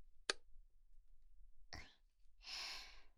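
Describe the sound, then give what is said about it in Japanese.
A light switch clicks off at bedtime with one sharp, crisp snap, followed by a couple of softer, breathy noises in an otherwise quiet room. “じゃあ、電気消すよ。”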